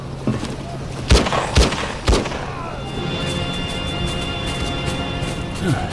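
Gunfire laid down as cover fire in a shootout: a few sharp, booming shots in the first half, followed by a steady droning hum.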